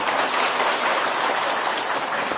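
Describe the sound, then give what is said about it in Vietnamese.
Applause from an audience at a Buddha's birthday celebration. A loud, continuous hiss of many hands sounds almost like heavy rain and stays unbroken and even throughout, with no voices. “Vỗ tay là phải làm nha.”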